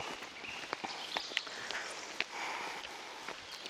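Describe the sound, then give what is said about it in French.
Soft, rhythmic footsteps of someone running at an easy, relaxed pace: many light, regular thuds, faint and steady throughout, with no talk. “Et voilà, donc on continue à courir tranquillement.”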